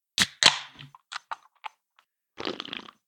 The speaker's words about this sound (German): Und es ist tatsächlich ein klassisches V-Plus Lemon in der Dose. Ich mach sie mal auf.